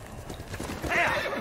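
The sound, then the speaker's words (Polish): Horse neighing and hooves clip-clopping in a video game while a player rides. Steady hoofbeats run throughout, and a loud whinny rises over them in the second half. “Dobra, konik, konik. W którą stronę mamy jechać?”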